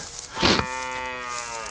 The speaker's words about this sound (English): I've got the cow.